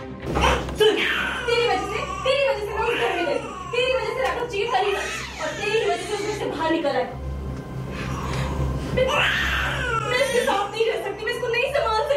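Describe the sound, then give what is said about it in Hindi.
A young boy sobs and cries for his mother, making uneven whimpers and wailing cries with high, wavering rises, with other voices heard alongside. “इसी बीच रियांश फूट फूट कर रोने लगता है, क्योंकि उसे अपनी माँ की याद जो आ रही है”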